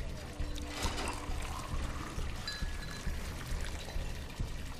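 Water poured from a bottle taken from the fridge, a steady faint trickling gurgle that runs unbroken through the whole stretch.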